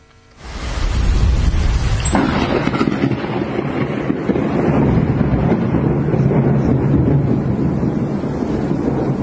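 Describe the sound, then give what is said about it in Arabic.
Thunder during a heavy rainstorm in the Aleppo and Idlib countryside of Syria. A sharp, loud crack breaks in early and rolls into a long, sustained rumble mixed with wind noise. “هذا صوت رعد أليس كذلك؟ صحيح، هذه صوت الصواعق الرعدية.”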